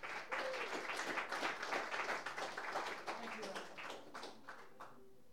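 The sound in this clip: An audience applauds to welcome a singer-songwriter guest, with many hands clapping steadily at a moderate level throughout. The clapping thins slightly toward the end.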